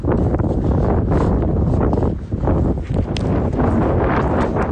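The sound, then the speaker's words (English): A strong blast of Patagonian wind batters the microphone with loud, continuous roaring and buffeting that barely dips across the whole stretch. “Now that is the first proper blast of Patagonian wind, and it sort of feels like we've kind of moved up to a different difficulty setting immediately.”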